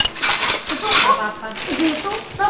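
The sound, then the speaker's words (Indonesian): A metal spoon clinks and scrapes against a cooking pot while water is being heated, giving many quick, irregular metallic chinks and rattles at a moderate level. “Masak air dong. Ini sendoknya adukin. Ini juga aduk.”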